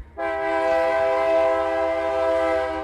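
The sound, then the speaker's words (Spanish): A loud, steady horn blast from an approaching freight train, one long sustained tone held throughout with no break. “El tren ya está muy cerca.”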